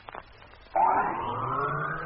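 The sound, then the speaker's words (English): A land vehicle's motor starts on a Mars expedition, kicking in suddenly after a few faint clicks and settling into a steady, humming engine drone as it moves off. “Right. Motor on.”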